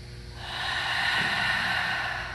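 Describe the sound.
A deep breath taken through the mouth during a stretching routine: one long, soft, airy rush of air that swells and holds steady, heard alone without talk.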